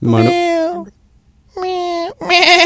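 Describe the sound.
A cat giving goat-like bleats: three drawn-out, wavering vocal calls, the first two separated by a short pause and the last following closely, each loud with a nasal, quavering tone.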